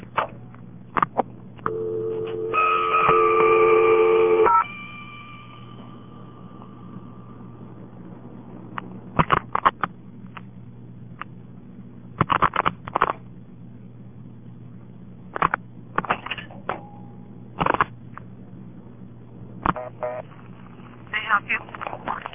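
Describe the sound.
Telephone line sounds while dialing the operator, heard through a narrow phone-band channel: a steady tone holds for about two seconds, followed by scattered clunks and clicking bursts through the rest.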